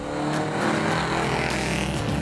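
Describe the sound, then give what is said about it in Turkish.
Engine of a vintage Austin 7, a car around 100 years old, racing up the Prescott hill climb: a loud, continuous engine roar with a steady harmonic drone that holds throughout. “Tehlike araç. Geliyor, geliyor. Hazır olun, ilk müşterimiz. Austin 7 Oster.”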